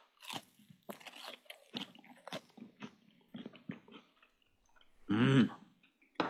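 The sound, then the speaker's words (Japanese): Biting and chewing a thick fried horse mackerel fillet dressed with sauce and lemon: a series of crisp crunches at irregular intervals, fairly faint, with no one talking over them. “はいね、身がしっかりと分厚くあるねアジフライですけれども、お味どうでしょうか。 はい、今日は私はソース&レモンでいただきます。”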